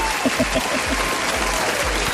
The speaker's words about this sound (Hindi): Good good, आपके लिए तालियां बजा देते हैं.